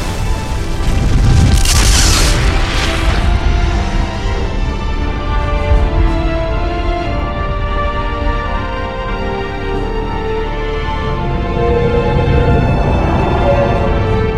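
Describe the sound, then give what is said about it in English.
A deep, roaring rumble of a planet's atmosphere igniting and engulfing a swarm of alien ships, loud and sustained throughout with a bright hissing surge early on and no voices. “The atmosphere. It's igniting. It's engulfing all the swarm ships.”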